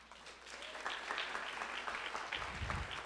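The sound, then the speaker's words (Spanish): Audience applause at a motivational seminar on building successful teams, with many hands clapping in a steady, dense patter that stays even throughout. “Date un fuerte aplauso por eso.”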